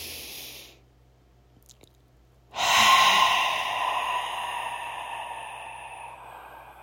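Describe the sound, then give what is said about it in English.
A deep breath during a guided meditation: a soft breathy sound, a quiet pause with a small click, then a long, audible sigh-like exhale that starts strongly and fades slowly, with no talking. “Another deep breath.”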